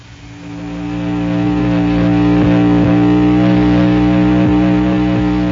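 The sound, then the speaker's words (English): A psychic restriction ray is switched on. An electric drone swells over the first couple of seconds, then holds as a loud, steady hum layered with buzzing harmonics. “Turn on the ray.”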